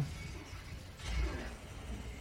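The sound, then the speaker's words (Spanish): An android is smashed to pieces in a video game, a shattering crash with metallic mechanical clatter and ratcheting. The crash swells to its loudest in the middle, over a constant low rumble, with no voices. “Acaba de hacer pedazos al androide.”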